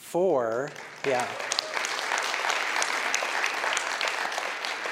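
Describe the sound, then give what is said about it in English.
Audience applause and clapping at a fundraising event for water wells in Guatemala's highlands. A voice speaks briefly, then steady, dense clapping fills the rest. “That is worth not only clapping, but like throwing a party.”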